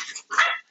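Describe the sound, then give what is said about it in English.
Puppies barking: two short bursts of high, thin yips, close together and fairly clear. “And if you hear my dogs in the background, I apologize. They're puppies.”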